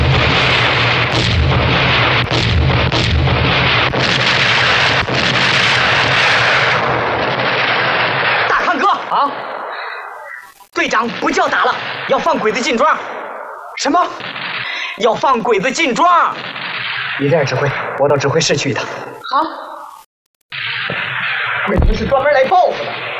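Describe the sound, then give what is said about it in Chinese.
Heavy enemy artillery fire and gunfire boom and crackle in a wartime battle over a village, a dense roar for several seconds. Then shorter bursts break up, mixed with loud voices shouting. “敌人的炮火打得很厉害呀！”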